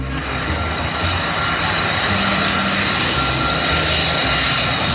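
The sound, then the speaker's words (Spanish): Steady jet engine roar from an E-3A AWACS aircraft built on a Boeing 707 airframe. The dense, loud rushing rumble holds constant throughout without a break. “Así suena este avión, que tiene un fuselaje del comercial Boeing 707 y que tiene unas dimensiones que realmente impresionan cuando lo ves a pie de pista.”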